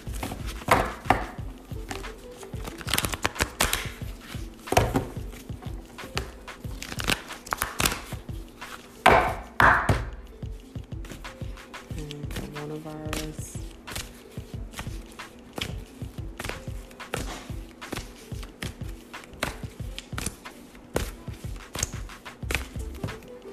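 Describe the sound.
Cards shuffled and handled during a spiritual card reading: many sharp, dry taps and slaps come in irregular bursts across the whole stretch, with no voices.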